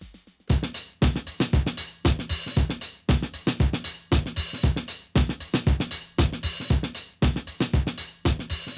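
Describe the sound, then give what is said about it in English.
A sampled breakbeat loops throughout: punchy kick, snare and hi-hat hits repeat in a steady, driving pattern, loud and alone with no voices. “It's a breakbeat, presumably lifted from another song, which just loops throughout pretty much all of the song, and that sounds like this.”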